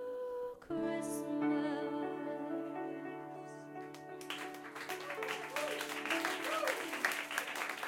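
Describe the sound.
Audience applause at a live Christmas music show: sustained musical tones ring at first, then a broad wash of clapping breaks out about halfway and keeps going to the end.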